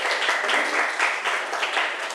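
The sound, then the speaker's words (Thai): Students in a classroom applaud a classmate, a steady patter of clapping from a group that stays even and fairly loud throughout the short burst. “ขอบคุณค่ะปรบมือให้เพื่อนหน่อย”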